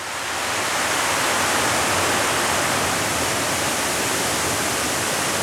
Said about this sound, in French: Vous entendez donc de l'eau couler.